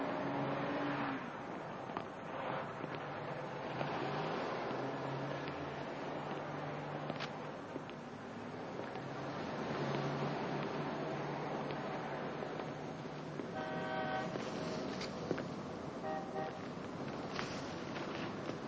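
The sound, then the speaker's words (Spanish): A blue Ford car arriving, its engine a low, faint, steady rumble with brief swells as it accelerates and moves. “Buddy y otro compañero llegan en el Ford azul.”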